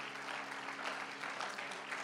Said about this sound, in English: Would you give the Lord a hand clap of praise while you're seated?